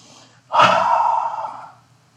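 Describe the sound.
A single deep breath, one sustained, airy rush of about a second that starts abruptly and tapers off, heard alone without talk.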